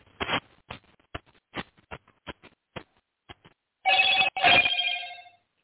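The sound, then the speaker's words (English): A telephone rings in two bright electronic bursts with a brief gap between them. Before it comes a string of irregular dry clicks and taps. “Let me turn this phone off.”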